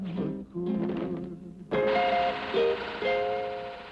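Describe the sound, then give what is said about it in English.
Cheesy space sound effects in a song chime and bleep as bright electronic tones, swelling into sustained shimmering notes that shift step by step over the music. “Listen to the cheesy space sound effects, how terrible this is.”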